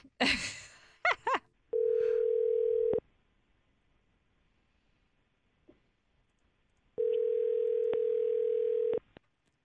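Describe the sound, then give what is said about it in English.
Ringback tone of an outgoing telephone call: two long, steady single-pitch tones separated by a pause of several seconds. Brief breathy rustles come before the first tone. “let's call Bianca right now and see if she'll answer our call”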